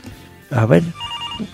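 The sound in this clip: A telephone rings with a short electronic tone that follows a brief burst of voice.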